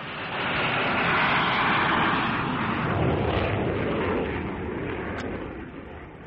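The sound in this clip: An airplane's engines roar as the plane takes off: a loud, steady, broad rumble that eases slightly toward the end.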